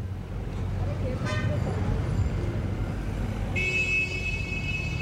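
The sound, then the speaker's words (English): Traffic rumbles at the corner of Balasis Road and Suklaji Street, and two car horns sound over it: a short honk, then a longer, steadier blast. “So, here we are, once again, back at the corner of Balasis Road and Suklaji Street.”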